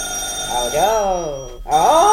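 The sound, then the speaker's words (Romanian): A telephone bell rings in a home with a steady, high metallic trill that continues beneath a person's speaking voice. “Aoleu, cum țârâie drăcovenia aia, parcă-mi găurește urechile. Păi da, e telefon să țârâie.”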